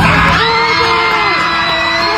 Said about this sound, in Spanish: ¡Oh, my God! Gritaron todos saltando del avión.